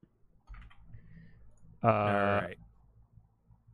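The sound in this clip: Faint clicking of typing on a computer keyboard, soft scattered keystrokes, with a brief spoken sound in the middle.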